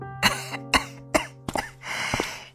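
An elderly, thin woman coughs: a few sharp, hoarse coughs spaced out in turn, then a longer rasping, throaty stretch at the end, with no talk over them.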